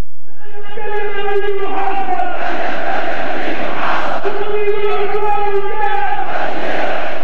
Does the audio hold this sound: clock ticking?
no